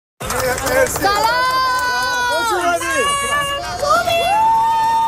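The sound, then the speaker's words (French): Supporters greet the Iranian national soccer team arriving in Mexico for the FIFA World Cup with a loud, unbroken mass of excited voices shouting and calling out together, and the sound holds steady for the whole clip. “Des partisans ont accueilli l'équipe de soccer iranienne à son arrivée ce matin.”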